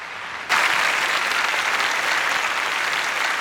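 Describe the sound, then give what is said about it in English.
Applause from crowds outside Westminster Abbey as a eulogy ends: after a brief quiet moment, dense clapping starts abruptly and holds steady and loud to the end. “Earl Spencer steps from the podium while outside people applaud. The Queen is stirred by the applause from outside the Abbey.”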